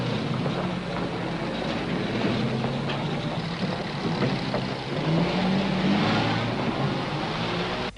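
A car engine rumbles steadily as the car drives off, a low, continuous hum with a brief rise in pitch partway through, and no voices.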